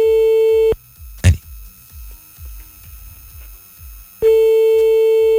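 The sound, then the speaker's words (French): Telephone tone as a late-night radio host dials a listener on a call-in show. A steady tone sounds, stops for about three and a half seconds, then resumes to the end. “on fait l'appel maintenant grâce au numéro que vous nous avez envoyé.”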